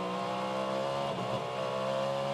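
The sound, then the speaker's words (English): Race car engine during WeatherTech SportsCar Championship 2023 Roar practice, heard through the tri-oval and braking into Turns 1 and 2: a faint, steady harmonic engine note whose pitch wavers midway, as if downshifting. “Through the tri-oval now, listen to the engine notes. Five gears down through the box into Turns 1 and 2.”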